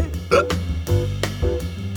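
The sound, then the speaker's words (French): Hiccups: a few sharp, abrupt bursts with irregular spacing, heard over a continuous low droning background. “excusez-moi, mais j'ai le hoquet.”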